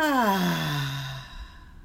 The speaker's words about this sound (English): Let's take a deep breath in, breathe in, and out.